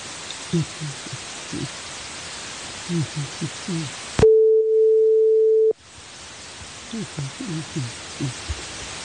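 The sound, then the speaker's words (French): A phone line tone sounds after a dropped call: one steady mid-pitched tone lasting about a second and a half. People speak before and after it. “Il semble que j'ai perdu Dr Medjid. Allô?”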